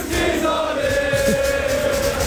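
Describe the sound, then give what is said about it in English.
Football fans singing together in a crowd, a sustained chant of blended voices holding steady tones over a noisy crowd background. “Meanwhile, here's a bunch of fans singing about someone losing something in the crowd.”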